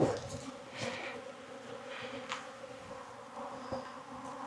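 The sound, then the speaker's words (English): Honey bees buzzing as a hive is worked during beekeeping, a steady, layered droning hum that holds at an even level throughout. “That is beekeeping, especially on YouTube.”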